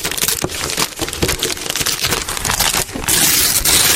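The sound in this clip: Paper crinkling and tearing as a wrapped gift package from under a Christmas tree is unwrapped, a loud, dense rustle broken by sharp crackling bursts that grows fuller toward the end.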